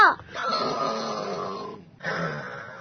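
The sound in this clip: Snoring from someone who has fallen asleep: two drawn-out, throaty breaths separated by a short silence.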